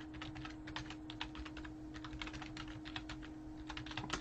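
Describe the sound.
Rapid keyboard typing as a Google search is entered: many quick keystrokes in an uneven, continuous patter over a steady low hum.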